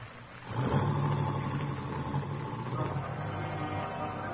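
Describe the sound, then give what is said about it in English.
A car slipping quietly away down a road on a rainy night, staged as a radio drama effect. A low, steady engine hum swells in after half a second and then slowly eases off. “You watch Helen's car slip quietly down the road.”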